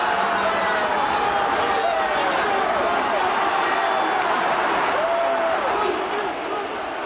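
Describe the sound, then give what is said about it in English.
Stadium crowd roaring at a Bremen Bundesliga match after the home goalkeeper's last-minute penalty save, a dense, loud, sustained wall of voices with chant-like tones running through it that eases slightly at the end. “Well, that was the sound of Felix Vietvoudt, the Bremen goalkeeper, making a last-minute save to deny Umut Toprak from the penalty spot.”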